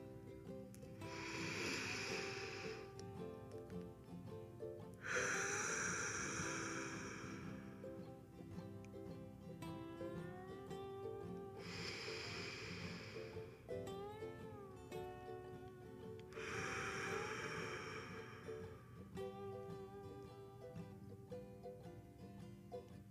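People breathing together during a guided meditation: a few long, soft, hissing breaths swell and fade several seconds apart, faint over a sustained tonal music bed.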